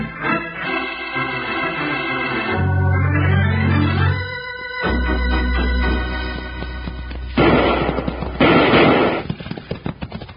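Gunfire from a western radio drama set in a town: swelling dramatic music gives way to a loud burst of rapid, sharp shots near the end.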